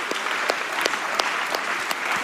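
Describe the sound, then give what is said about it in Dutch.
Applause from a church audience for the choir at a Sunday morning service: dense, steady clapping from many hands, moderately loud and even throughout, with no voices on top. “Zullen we nog eens een extra applaus geven even? Ja, dat mag.”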